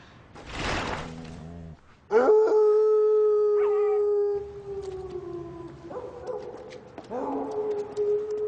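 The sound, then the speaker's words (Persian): A dog howls in a long, sustained tone that slowly sinks in pitch, followed by a few shorter, wavering howls and whimpers after a noisy burst at the start. “زوزه نکش، خواهش میکنم.”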